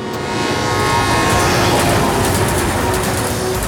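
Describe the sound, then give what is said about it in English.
A freight train passing makes a steady, loud rumble and roar that holds at an even level throughout, with no clear breaks. “This train runs through our lives,”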